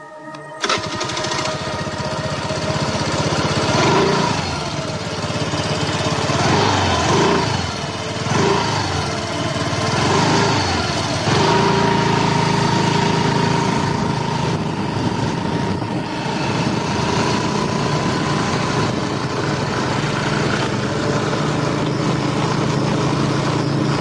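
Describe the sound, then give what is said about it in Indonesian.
Motorcycle engine starts with a sharp catch, then runs and revs steadily for the rest of the ride, its buzzing pitch shifting up and down at times. “aku pun segera menyalakan motorku dan bergegas pulang”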